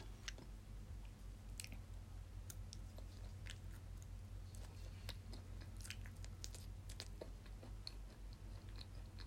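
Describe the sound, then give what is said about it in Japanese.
Quiet chewing of edamame: a steady series of soft, crunchy bites and moist squishes in an irregular rhythm, with no talking. “枝豆美味しい、おばあちゃんありがとう。”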